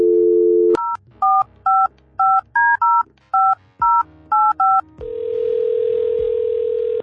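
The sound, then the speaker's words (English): Touch-tone beeps of a telephone number being dialed: a steady dial tone, then a quick run of about ten short two-note beeps, followed by a sustained, even tone. “let's dial him up.”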